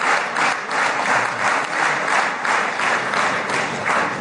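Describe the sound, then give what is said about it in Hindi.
Knesset members in the Israeli parliament rising to applaud Prime Minister Modi: loud, warm clapping from many hands, pulsing in a steady rhythm of even swells throughout. “गौर फरमाईंदा त Israeli parliament Knesset में प्रधानमंत्री मोदीअ जो सभिनी मेंबरान उथी बीह करे गरम जोशीअ सां ताड़ियूं वॼाए स्वागत बि कयो।”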